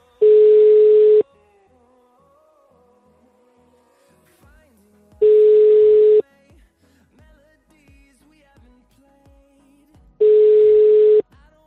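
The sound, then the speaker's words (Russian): Ringback tone on a telephone line while calling an old number: three long, steady single-pitch beeps, each about a second long, separated by quiet gaps of about four seconds. “Сейчас номер есть, кстати, это очень старый номер. Оказывается, он опять функционирует. Я набираю.”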